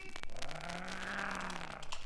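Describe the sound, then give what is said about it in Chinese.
A car drives past on a road, its engine a low, steady drone that swells through the middle and eases off, with light clattering noise around it and no voices. “严排长见汽车已过”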